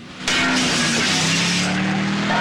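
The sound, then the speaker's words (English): A new American Motors car making a U-turn on a street. Its engine starts with an abrupt, loud roar and holds as a steady, throaty rumble to the end. “Out on the street, he executes a U-turn.”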